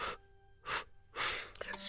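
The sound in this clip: Three short, sharp inhaled breaths, gasp-like and separated by brief pauses, taken in increments as part of a breathing exercise.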